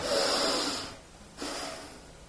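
A sharp, forceful breath gives a loud, airy rush of about a second. After a short pause comes a second noisy breath, with no talking.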